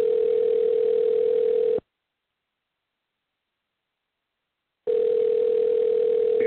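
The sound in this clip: Ringback tone of an outgoing telephone call: a steady, moderately loud electronic tone sounds for about two seconds, falls silent for about three seconds, then starts again.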